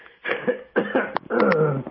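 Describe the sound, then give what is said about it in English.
Coughing and throat clearing from a person with a frog in the throat, three rasping, harsh bursts in quick succession, loud and close together. “Oh, excuse me. Seem to have a frog in my throat”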